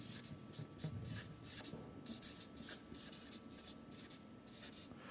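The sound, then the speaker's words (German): Writing on a board as a Greek word is spelled out during a lecture: many short, scratchy strokes in an irregular rhythm, faint and alone with no talk. “Wird ungefähr so geschrieben.”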